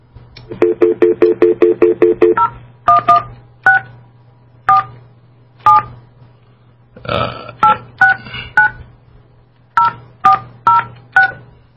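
Touch-tone dialing of an international call to New Zealand: a rapid, even run of identical loud beeps, then a slower, irregular series of higher dual-pitched tones, all over a steady low hum.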